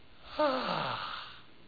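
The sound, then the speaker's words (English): A voice imitates a snort, a strong, forceful breath pushed out through the nostrils. It is one short, noisy burst with a voiced tone that falls in pitch, then fades. “The word means a strong nostril breath.”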